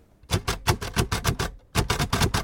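A Braille writer types on a small card in a booth: a rapid run of sharp, clacking key strikes in uneven rhythm, a short pause, then another quick burst of strikes, fairly loud and with no talk.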